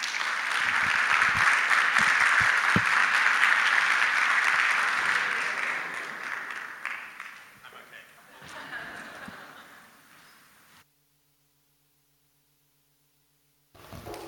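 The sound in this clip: Warm audience applause in a church welcoming a guest speaker, a loud, dense clatter that gradually fades out, followed by a short silence before a voice begins at the very end.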